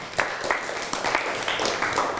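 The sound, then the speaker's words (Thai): Classroom applause for a student who has just finished playing Thai music, a brief patter of claps under faint background noise, with no voices. “โอ้เก่งมากนั่งลงครับปรบมือให้กับเพื่อน”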